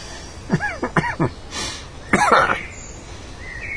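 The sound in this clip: Coughing fit from someone who has just inhaled something, a few harsh, voiced coughs and throat sounds in quick succession, with a breathy burst between them, loud against a quiet background.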